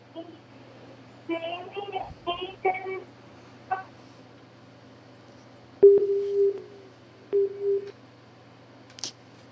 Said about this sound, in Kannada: ಆಶಾ ಪ್ರಕಾಶ್ ಅವ್ರದ್ದು ಕರೆ ಕಟ್ ಆಯ್ತು